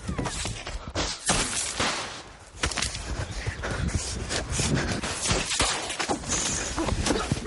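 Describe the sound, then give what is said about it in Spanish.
Small magical explosions burst from wands fired during a forest chase in a film scene, a busy run of sharp, loud cracks and bursts amid dense, constant action noise. “Los carroñeros disparan sus varitas y se producen pequeñas explosiones junto a los chicos.”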